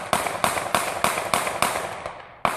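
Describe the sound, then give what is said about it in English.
Eight gunshots fired by a police officer in an empty lot, captured on a bystander's video. Sharp, loud cracks come in a fast, even series of seven, then a final shot after a short pause. “He records the scene unfolding in this empty lot, and it's really startling. Scott is running away from the officer when Slager opens fire.”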